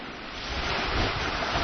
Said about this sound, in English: Waves lap languorously against the shore on Ometepe Island in the middle of Lake Nicaragua.